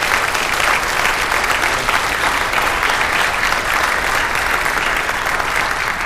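A church audience gives loud, sustained applause to welcome a visiting guest at a Sunday morning service. Dense, even clapping from many hands fills the whole stretch without pause.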